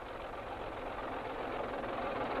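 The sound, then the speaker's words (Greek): Motor vehicles of foreign soldiers drive through the central streets of Athens as a steady, unbroken engine rumble and road noise with a constant loudness and no distinct individual events. “Πέρναγαν και οι ξένοι στρατιώτες από τους κεντρικούς δρόμους της Αθήνας, καβάλα στα μηχανοκίνητά τους”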